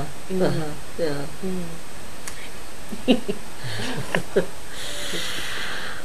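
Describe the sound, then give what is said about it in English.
People take a deep breath and blow runny, snotty noses; voiced sounds come first, then a few short snorting bursts and a longer, breathy hissing blow. “Time for a deep breath, everyone. And a snotty blow.”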